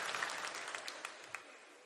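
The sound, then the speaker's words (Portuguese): Applause from a church audience during a service: dense, steady clapping with a few sharper claps standing out, fairly quiet throughout and with no voices over it. “Pode aplaudir, o povo está animado hoje.”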